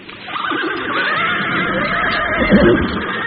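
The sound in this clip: Horses neigh and whinny as riders mount, producing loud, wavering, quavering cries that overlap in a continuous layer throughout.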